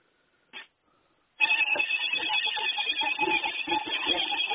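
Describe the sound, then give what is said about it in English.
Skype incoming-call ringtone: a short tone blip, a brief pause, then a loud, sustained bright ringing tone that continues to the end. “We have, it looks like a Skype caller or somebody calling in from online.”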